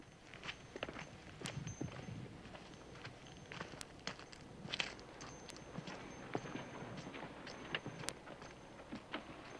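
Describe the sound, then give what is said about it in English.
A mule's hooves clip-clop as it is led up a bank, with soft, irregular steps that are faint and continuous throughout. “Sarah untethers her mule and leads it up the bank to Hogan”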